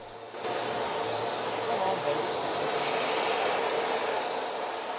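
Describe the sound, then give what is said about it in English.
A steam locomotive starts to move as its huge wheels begin to turn, a loud, broad hiss of steam cutting in after a brief quieter moment and then pouring on steadily without a break. “The locomotive's huge wheels slowly begin to turn.”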